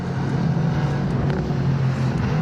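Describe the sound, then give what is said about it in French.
A car's engine drones loudly as it brakes hard into a hairpin turn. The low rumbling note holds steady and unbroken throughout. “Gros freinage.”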